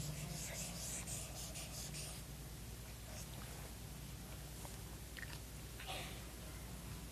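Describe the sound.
An elderly monk writes on a board in Chinese, English and Sanskrit, making scratchy strokes that come densely at first and then sporadically over a steady low hum.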